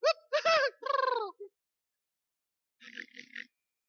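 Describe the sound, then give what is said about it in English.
A man's voice imitates a Three Stooges-style yelp after being goosed: several high, warbling whoops in quick succession, then a pause and two short, raspy bursts. “And I would goose him. And he sounded like all the Three Stooges at one time. He'd go,”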